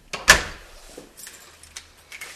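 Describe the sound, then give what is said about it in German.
An apartment door being locked with keys: a sharp click of the lock, then light metallic jingles and small clacks of the key ring, sparse and fairly quiet. “Jetzt schließt sie zufrieden die Wohnung hinter sich ab, die Besichtigung ist beendet”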